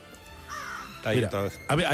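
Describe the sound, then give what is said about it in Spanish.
A crow cawing: a few harsh, loud caws come in quick succession near the end, after softer sound that may be voices. “Sí, pues para eso, para que nos libre del cuervo.”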